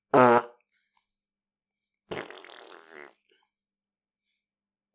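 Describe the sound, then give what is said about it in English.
A voice imitates a fart with the mouth in two blown raspberry bursts: a short, loud one, a gap of silence, then a longer, buzzier one that trails off. “making fart noises with their mouth”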